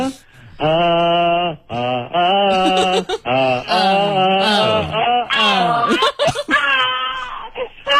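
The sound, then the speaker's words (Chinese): A frightened child cries inside a crowded car, with loud, high, wavering wails coming in a series of long drawn-out bursts separated by brief catches of breath. “这怎么了？ 这怎么回事？ 这孩子吓哭了。”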